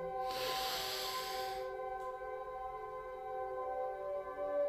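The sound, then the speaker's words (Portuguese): A single deep inhale during a guided breathing exercise, a breathy rushing hiss lasting about a second and a half over steady, sustained background tones. “Então você inspira.”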